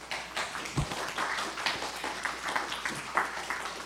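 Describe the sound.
Applause from an audience welcoming a speaker to a talk, a steady, moderately loud wash of clapping that runs through the whole stretch with no pause.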